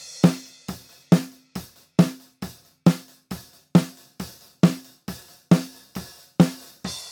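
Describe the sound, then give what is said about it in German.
Snare drum hits from an unprocessed track with no noise gate, with bass drum and cymbal bleed: a steady beat of many sharp cracks, each decaying quickly, with louder and softer strikes alternating. “Wir hören mal kurz in die nackte Snare-Spur rein, wie die unbehandelt und komplett ohne Noise-Gate und alles klingt.”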